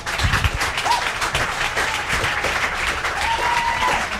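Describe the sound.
An audience at the Sweet Basil jazz club applauds to welcome a jazz quartet, with loud, dense, continuous clapping that holds steady throughout.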